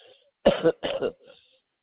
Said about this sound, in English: Can you tell I've got a nice cough?